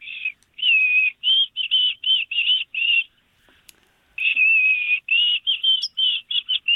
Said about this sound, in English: Oh, very good. White-throated sparrow. You were pretty close.